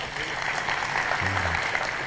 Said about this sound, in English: clap on.